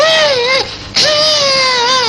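A little girl cries loudly in sustained, high-pitched wailing sobs. The crying breaks off briefly partway through, then resumes just as strongly.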